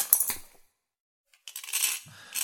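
A metal knife is thrown over and lands with a sharp, bright metallic clatter: a burst of clinks at the start, a short silence, then a longer jangling rattle that settles and flares again at the end.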